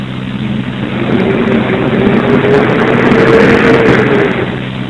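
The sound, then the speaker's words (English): A garbage truck used for commercial trash idles with a low, steady engine rumble and broad mechanical noise. The sound swells slightly through the middle, and a faint sustained tone sits above the rumble. “It's a garbage truck.”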